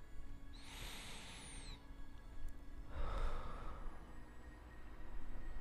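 A person breathing deeply, with two slow, faint, airy breaths separated by a pause over a low background hiss.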